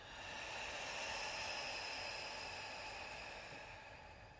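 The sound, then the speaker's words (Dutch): A long, slow exhale through an open mouth during a guided breathing exercise: one continuous breathy hiss that swells in quickly, holds steady for several seconds, then eases off slightly at the end, with no talking. “Lange uitademing. Adem in. Laat los.”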